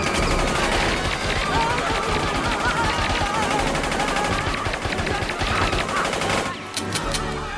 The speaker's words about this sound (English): Use the machine gun!